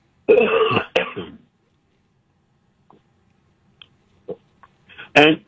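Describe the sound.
Rasping throat clearing opens with a loud, harsh burst, followed by a few faint small noises and then another rough clearing burst at the end.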